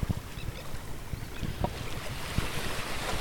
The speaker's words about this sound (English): Some more wave organ sounds for you on this Thursday morning. Oh, it's high tide.